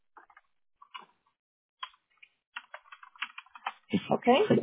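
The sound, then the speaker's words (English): Typing and clicking on a computer keyboard, with sparse, light taps in small irregular bursts that grow busier, before a person starts talking over the final second. “walk you through the clicks and the typing, because I have to read it to you anyway”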